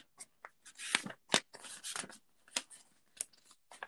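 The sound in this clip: Paper race program handled and flipped through: quiet, crisp rustles and flaps in an irregular series of short bursts, with brief pauses between them.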